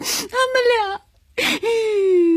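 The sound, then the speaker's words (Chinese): A person crying in wavering, wailing sobs, broken by a brief silent pause, then a breathy sob and a long drawn-out moaning wail that holds a steady pitch to the end. “别哭了，老爸厉声喊着。”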